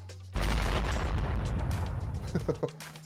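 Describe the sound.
Bomb explosion sound effect: a sudden loud blast bursts out of near silence into a dense rumbling roar that gradually tapers, ending with a few smaller pops.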